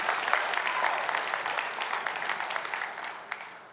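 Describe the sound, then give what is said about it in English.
A church audience at an Easter service gives the worship team a round of applause, with many hands clapping steadily and fairly loudly before it gradually thins out toward the end. “Give it up for the team, the tag, all that. That was amazing.”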